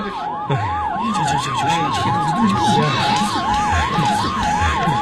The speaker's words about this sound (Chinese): 让开让开，大家快让开，让救护车过来救人。